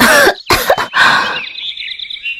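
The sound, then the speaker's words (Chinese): A woman coughs hard while clutching her throat, giving four harsh, rasping bursts in quick succession, followed by a thin, high whistling tone that slowly fades. “妖媚女子捂着自己的脖子猛地咳了几声”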